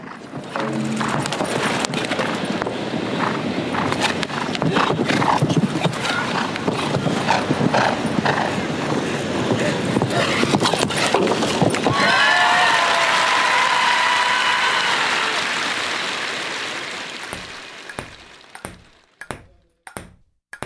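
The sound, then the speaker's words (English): Horses at an Olympic equestrian show jumping event: rhythmic hoof thuds over busy arena noise, then a swelling crowd roar that fades, leaving a few sharp, separate hoof strikes at the end. “I leave you with one of my favorite sounds, the equestrian jumping event.”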